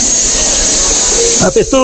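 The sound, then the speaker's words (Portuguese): A pressure cooker releases steam in a loud, steady, high-pitched hiss that holds evenly throughout, with a brief voice breaking in near the end. “Ó a panelinha do tchau, ó, a panela de pressão do tchau, ó.”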